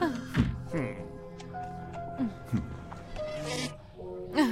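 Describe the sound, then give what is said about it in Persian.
Buzzing comes from a bee that someone has swallowed: a thin, steady drone under voices and short vocal sounds. “آره، ظاهرن یه زنبور قورت داده.”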